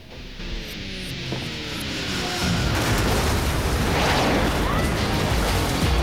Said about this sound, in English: The vehicles collide, then crash into a beam supporting a huge water tank. They manage to get out just before the tank topples over and crushes the cars.